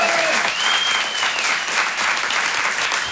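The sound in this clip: An audience at a comedy show bursts into applause. Dense, continuous clapping holds steady throughout, with a short whistle rising out of it near the start.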